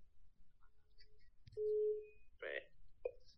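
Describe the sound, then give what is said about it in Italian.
A phone call is dialed on speakerphone: a few short electronic beeps, then a sustained tone and a couple of brief ringing bursts, all fairly quiet. “Chiamiamo Domenico. Allora, mettiamo il viva voce.”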